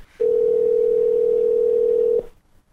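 Telephone dial tone heard after a number is dialed: a single steady, unbroken mid-pitched hum that holds for about two seconds and then cuts off, with no talk over it.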